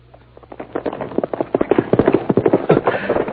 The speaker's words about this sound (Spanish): Con seguridad que espantó el caballo para que se fuera corriendo solo.